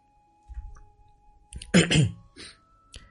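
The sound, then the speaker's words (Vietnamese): Coughing and throat clearing from someone with a cough: several harsh, rasping bursts at irregular intervals, the loudest and longest a gravelly clearing in the middle, with a short faint cough at the end. “Mình không thể đọc được nữa, nó bị ho quá, anh em thông cảm.”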